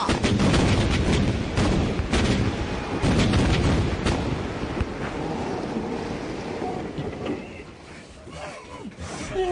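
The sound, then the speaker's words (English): A ship's cannons fire in a sea battle scene, many heavy booming shots in quick succession over a dense, roaring wash of noise, the blasts thinning out toward the end. “Point your guns! Fire as they bear! At last. On the roll, boys! On the roll! And... fire!”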